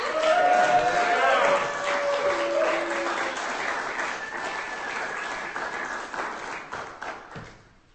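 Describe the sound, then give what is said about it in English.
Audience applause for a performer at a poetry reading: sustained, dense clapping over eight seconds with some voices mixed in, slowly fading toward the end. “Give him a hand.”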